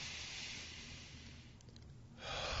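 A slow, deep breath taken as a calming breathing exercise: a soft, steady airy hiss that dips slightly partway through, then swells louder near the end, with no talking.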